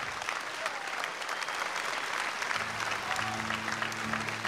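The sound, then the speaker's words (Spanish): Audience applause welcoming a guest into an auditorium in Argentina: continuous, dense clapping, with a voice speaking over it in the second half. “y aquí en Argentina siempre hubo, hay y habrá un aplauso para recibirlo. ¿Les parece? ¡Lo recibimos!”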